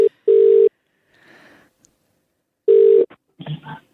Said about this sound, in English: All right, we're dialing.